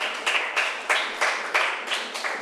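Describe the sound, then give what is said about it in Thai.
A class of students claps for a classmate, a dense patter of many hands that swells in a regular pulsing beat, with no talking. “โอเคปรบมือให้เพื่อนหน่อยค่ะ”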